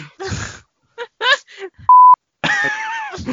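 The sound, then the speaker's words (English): A single short electronic beep serves as a quiz buzzer on the final question. It is a steady, flat tone, loud and abrupt, set between bursts of people talking. “Didn't realise we'd switched buzzer noises.”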